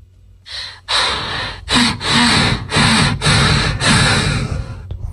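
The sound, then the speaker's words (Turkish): A person imitating snoring with their voice: a run of loud, rasping, breathy snorts in quick succession, each a harsh burst of noise separated by short gaps, with no other talk. “Bu nasıl horlama? Bu nasıl horlama böyle?”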